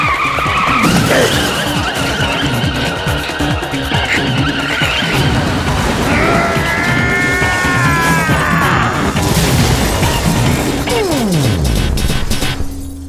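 A fleeing car's engine roars as its tires squeal through a series of long, high-pitched skids, followed by harsh crashing impacts near the end. The sound is loud and continuous, with no voices.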